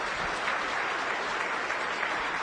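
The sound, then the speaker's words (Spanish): Steady applause from a seminar audience at an entrepreneurship event, welcoming first-time attendees; a dense, even wash of many hands clapping continuously without a break. “Muy bien, un aplauso para ellos, muchas felicidades.”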